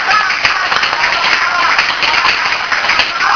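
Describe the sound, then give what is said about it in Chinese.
Group of students clapping the rhythmic 'love encouragement' cheer, loud, dense, fast claps sustained across the whole stretch. “所以他们到楼下来欢迎我们，所以呢，我们再给这些刚下来这边，这些同学们给他们爱的鼓励，那我们给他们再鼓励，爱的鼓励呗，来。”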